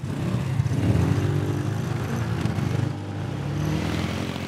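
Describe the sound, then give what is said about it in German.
A hot rod engine accelerates during a guided city tour drive, its low, throaty drone swelling, easing off briefly, then building again. “Wir fahren noch ein paar Meter. Wir geben jetzt mal Kette. Und geben noch mal Gas.”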